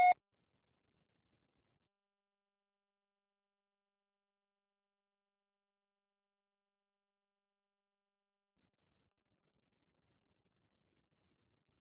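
A voicemail beep after the recorded greeting: one short, clear tone at the very start, followed by long silence.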